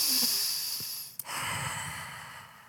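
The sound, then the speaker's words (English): A deep breath, heard as a long soft airy rush with one brief sharp catch midway, steady in level and with no talking. “But now, I take a deep breath.”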